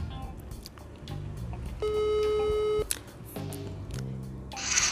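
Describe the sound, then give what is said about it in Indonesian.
A telephone ringback tone plays while someone is being called: one steady electronic tone lasting about a second, clear and moderately loud above a low background. “kita hubungkan langsung nih sama Emmy semoga aja diangkat nih”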